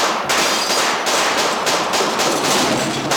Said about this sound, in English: Did Santa just get shot?